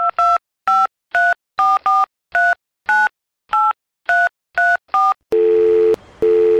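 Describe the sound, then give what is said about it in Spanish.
Cell phone keypad tones beep out a rapid run of many short dialing pulses, followed by a long steady line tone that breaks briefly and then resumes. “voy a llamar a mi fiel amigo Carita de Ángel”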